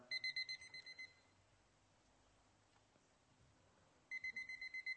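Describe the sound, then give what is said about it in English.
Alarm clock going off with rapid electronic beeps in short bursts, fairly faint. The beeping stops for a few seconds of quiet, then resumes with the same quick pattern. “do you ever hear the alarm clock in the morning? Mine goes off.”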